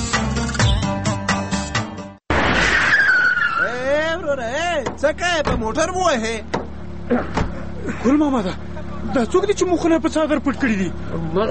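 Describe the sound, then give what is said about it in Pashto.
A car brakes suddenly on a road. After a brief silence comes a sharp burst of noise with a squeal that falls in pitch, and people talk before and after it. “د لارې په اوږدو کې ناڅاپه یو موټر ورته بریک شو”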